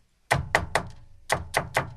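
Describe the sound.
Knocking on a door: two groups of three firm, hollow knocks, each group in a quick even rhythm with a short pause between, alone on a quiet background.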